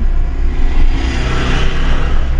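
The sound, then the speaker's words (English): Car road noise from a vehicle driving along the tar road from Skukuza to Lower Sabi in Kruger National Park. A loud, steady low rumble of engine and tyres runs without a break, with no talking. “Okay, so we're setting off on the road. It's a tar road that takes us all the way from Skukuza to Lower Sabi.”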